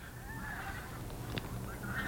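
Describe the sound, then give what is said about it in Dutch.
Geese honk outdoors in a few nasal, faint calls over a steady background hiss. “Beschouw dit dan maar als een bedankje van de ganzen.”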